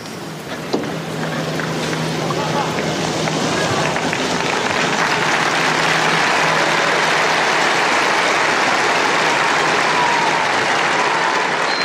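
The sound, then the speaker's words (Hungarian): Sustained applause from pilgrims thanking Pope Francis for his blessing at a Wednesday general audience, a dense, steady wash of clapping that holds at an even, loud level throughout. “Szokásukhoz híven a zarándokok ma is tapssal köszönik meg Ferenc pápa áldását, az ő tanítását”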